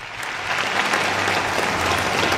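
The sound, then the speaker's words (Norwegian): Crowd applause greets Donald Trump's launch of the American government's new website, a dense, steady roar of many hands clapping that swells slightly after the opening and holds. “Full jubel da Donald Trump lanserte den amerikanske regjeringen sin nye nettside.”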